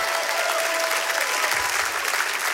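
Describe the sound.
A church audience applauds and cheers in praise with dense, continuous clapping that stays loud and steady throughout, with some voices mixed into the crowd noise.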